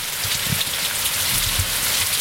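Steady rain falls without pause on a courtyard, a dense, even hiss of drops that holds at one level throughout, with no voices.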